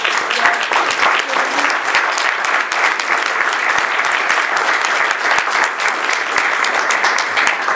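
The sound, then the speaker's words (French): An audience gives dense, sustained applause for two colleagues' work, an even wash of many hands clapping steadily and loudly throughout, with no talking over it. “je pense que là, ça mérite un big applaudissement”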